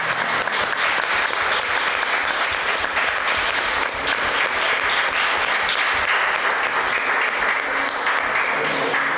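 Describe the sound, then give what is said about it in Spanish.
Loud, sustained applause for guests from a crowd, a dense unbroken wash of many clapping hands holding steady from start to finish. “Un aplauso enorme, por favor.”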